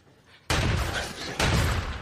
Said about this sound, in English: They fucking shot me! Well, shoot them back!